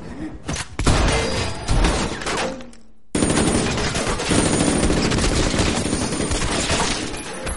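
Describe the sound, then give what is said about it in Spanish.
Gunfire in an action thriller film as a man shoots when an elevator opens. Heavy bursts of shots are followed by a brief gap of near silence, then a long, sustained barrage of rapid fire. “El ascensor se abre y Gon dispara.”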